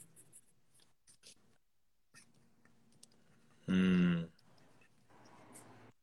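A pen scratches faintly on paper as someone writes a few words, in short quiet strokes, with one brief loud buzzing sound partway through.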